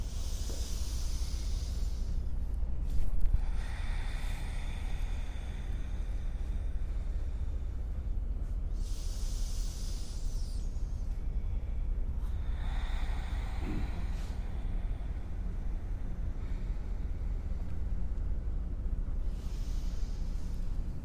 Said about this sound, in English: Exhale, fold forward. Back into that sound, your sound of breath.